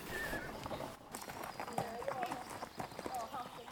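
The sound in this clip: Hoofbeats of an Icelandic horse being ridden on a forest outing: many faint, rhythmic clip-clop strikes in a steady, quick gait, heard under low talk.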